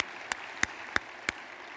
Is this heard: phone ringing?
no